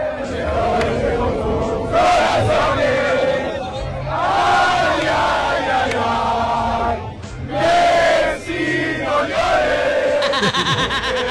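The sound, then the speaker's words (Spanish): A Spanish football crowd sings Cielito Lindo in unison to mock Messi, loud massed voices carrying the melody. Several bursts of roaring cheers break in. “El cielito lindo. Cantado por los españoles. Ay, ay, ay, ay, Messi, no llores.”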